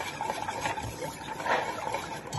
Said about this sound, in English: Waiting for that to boil. That's already boiling.